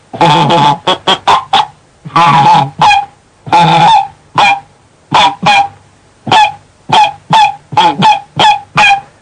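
A flock of geese coming in to land at hunters' silhouette decoys honks loudly and clearly, with many short calls grouped into rapid bursts separated by brief pauses, and softer murmuring between them.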